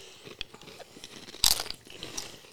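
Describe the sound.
Crunching and chewing of snack chips: a run of crisp, irregular bites and munching, mostly soft, with one sharp, louder crunch partway through and more chewing after it.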